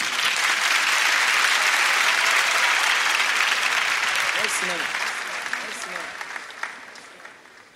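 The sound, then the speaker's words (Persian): An audience applauding at a gathering of poetry recitation, dense clapping that starts strong and slowly thins and fades toward the end, with a few isolated claps standing out. “یه کف بزنید بر خودتون”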